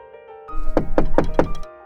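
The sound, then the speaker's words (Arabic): Knocking on a house door: a quick, evenly spaced series of firm, hollow raps, with no voices. “من طرقت باب البيت؟ صديقتي طرقت باب البيت.”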